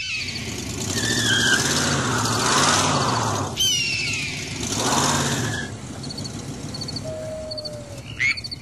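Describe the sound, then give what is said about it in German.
A car driving, its engine note swelling and easing in repeated waves under high squeals, then settling into a lower, steadier hum with short chirps over it near the end. “Und schleicht sich aus dem Haus. Wir fahren zu Stavros.”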